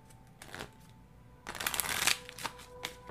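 Oracle cards from a fairy deck being shuffled: a few papery riffling bursts, faint at first, then louder and denser in the middle, with short flicks trailing off.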